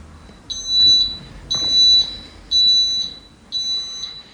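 Beeping from an item-finder device whose sound grows louder when its button is held: four steady, high-pitched electronic tones, each about half a second long, evenly spaced one second apart, with nothing else behind them.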